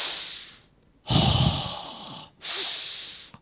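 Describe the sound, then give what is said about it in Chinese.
A deep breath used to illustrate drawing in more air: a long, loud, hissing rush of breath lasts over a second, then a second breathy surge follows after a brief pause, with no speech. “就像如果我是要更多的空气的话，我怎么做啊？我会做深呼吸，对不对啊？”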